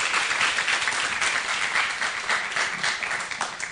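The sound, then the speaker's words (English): Morning audience applause welcoming a speaker, with dense, even clapping sustained at a steady level from start to finish. “Give a big hand.”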